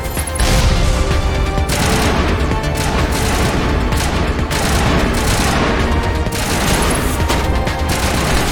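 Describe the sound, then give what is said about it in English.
Loud, dense gunfire from enemies in a video game rattles without pause, with heavy booms and crashes mixed into the barrage. “Oh my gosh, it's more people, they're shooting at us.”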